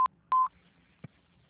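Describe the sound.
Telephone keypad tones dial an extension: two clear touch-tone beeps, the first very short and the second longer, then a faint brief click.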